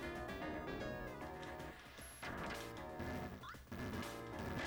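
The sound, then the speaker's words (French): A knight boss swings his two-handed sword into a wall in the 1991 Mega Drive game Quackshot, setting off crashing impacts and falling debris. The crashes sit inside loud, continuous, busy game music. “C'est extrêmement dur parce que tu es dans un espace confiné avec ce, grand chevalier qui a une, épée à deux mains qu'il fait valser. Et en même temps, quand il la projette sur un mur, ça fait s'ébouler des, énormes débris qui te tombent sur la,”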